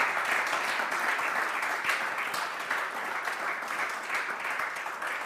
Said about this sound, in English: Can you clap your hands?